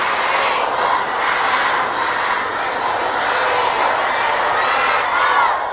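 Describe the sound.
An audience answers the Islamic greeting in unison at a religious gathering: a loud, sustained chorus of many voices that swells and eases over several seconds.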